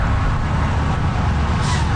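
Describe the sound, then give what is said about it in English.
Morning rush-hour traffic at the corner of Hazeldean and Carp Road: a loud, dense, continuous roar of passing vehicles with no breaks. “Standing here at the corner of Hazeldean and Carp Road, morning rush hour.”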